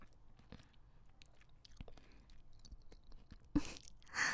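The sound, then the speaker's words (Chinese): Someone quietly chews well-cooked beef, with soft irregular crunches and mouth clicks, then a louder bite and chewing noise near the end. “今天牛肉的火候特别好，好吃。”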